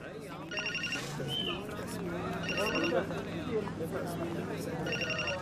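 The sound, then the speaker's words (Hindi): A telephone rings in three repeated bright bursts over continuous talk and background voices. “माफ कीजिएगा मैं telephone को receive कर लूँ।”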